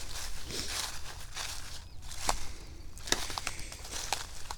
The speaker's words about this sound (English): And how did I do this last time? Oh yeah, walked around this way.